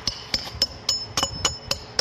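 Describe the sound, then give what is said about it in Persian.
A small hammer taps a traditional tile in a tile workshop at Herat's Great Mosque. The light, bright taps have a ringing edge and repeat at a steady, even pace, roughly four per second. “در کارگاه کاشی‌سازی در مسجد جامع بزرگ هرات با چکش کوچک بر کاشی سنتی بارامی میکوبد.”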